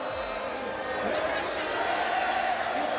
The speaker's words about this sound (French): Et le public en profite. Continue de chanter.